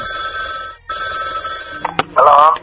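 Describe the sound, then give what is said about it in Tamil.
Ringback tone of an outgoing phone call to a crime investigation department number: a steady buzzing ring in two bursts separated by a brief gap, then a click and a voice answering. “அதைத் தொடர்ந்து அந்த தொலைபேசி எண்ணிற்கு தொடர்பு கொண்டோம்”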